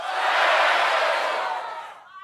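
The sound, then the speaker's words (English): A studio audience shouts out five-letter word guesses at once, making a loud, dense wash of overlapping voices that swells and holds for about two seconds before fading. “Everyone in the audience, shout out a 5-letter word.”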